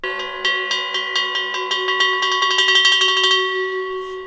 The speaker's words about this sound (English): It is called Resounding Earth, where different metals and over 100 bells from a wide mix of cultures and historic periods are used to create music.